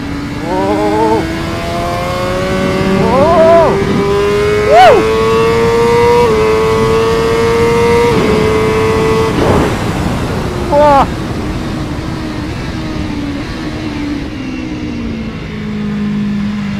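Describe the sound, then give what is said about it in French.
Motorcycle engine droning as the bike is ridden, its pitch climbing slowly through a long pull before dropping to a lower hum, with a few brief, sharper surges of noise along the way. “Cette moto est allée toute seule exactement où je voulais aller, sans forcer sur la direction.”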